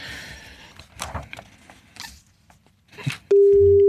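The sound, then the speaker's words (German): A telephone ringing tone sounds on a call to a number. It starts abruptly near the end as a loud, steady, even-pitched tone, following quieter, uneven background noise. “Na, lassen wir es noch zweimal klingeln.”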